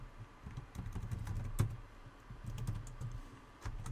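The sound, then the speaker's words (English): Typing a password on a computer keyboard while setting up an email account: a quiet, steady stream of many soft keystrokes, with one sharper key click partway through. “Okay, so we'll go ahead and type our password in.”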